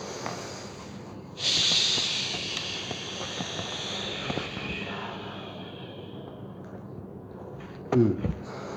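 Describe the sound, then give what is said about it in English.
A long breath drawn in through the nose during a group breathing exercise, a loud airy hiss that swells then slowly fades over several seconds, with a short sharp snort-like burst near the end. “Let's all say together. Breathe through your nose.”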